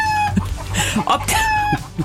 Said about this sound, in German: Die Hühner hatten 24 Stunden Zeit, Eier zu legen